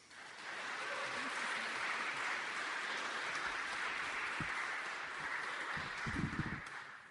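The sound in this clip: Audience applause welcoming a performer to the stage at a House of Mercy show: steady, dense clapping that holds for about seven seconds, with a few low thumps near the end.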